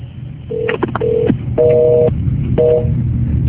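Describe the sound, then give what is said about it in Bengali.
Telephone busy tone after a call drops: a few short, steady electronic beeps separated by brief gaps. Some beeps carry a second, higher tone. A low hum sits underneath, and nobody speaks. “লাইনটা disconnect.”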